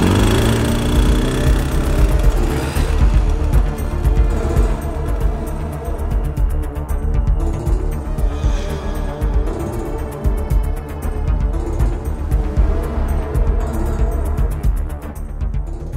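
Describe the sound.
Motorcycle carrying two riders pulling away uphill, its engine a loud, continuous drone that holds throughout with no talk over it.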